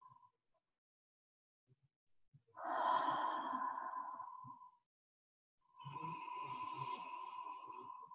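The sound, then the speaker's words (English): Two long, deep breaths are drawn through palms rubbed with a drop of oil and cupped over the mouth and nose. Each is a soft, airy rush lasting about two seconds, with a brief pause between them. “And take a few deep breaths.”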